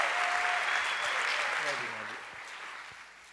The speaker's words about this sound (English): Put your hands together and welcome Pastor Alex Reale.